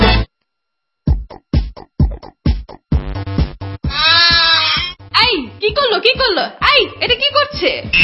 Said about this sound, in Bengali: আরে এই যে তোমার ছাগল আমার কন্যার এক্সাইট খেয়ে ফেলছে।